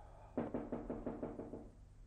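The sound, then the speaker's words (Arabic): Knocking on a door, a character rapping at a poet's door in a dramatized scene: a rapid, evenly spaced run of several crisp knocks that stops abruptly, with no voices. “سيمون ينقر على الباب مرة أو مرتين في البداية دون أن يتنبه الشاعر لوجوده.”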